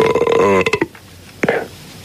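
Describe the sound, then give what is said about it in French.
A person lets out a loud, throaty burp that ends in a rattling, pulsing tail. A shorter second burp follows after a brief pause. “Merci pour celui qui rote, espèce de gros porc.”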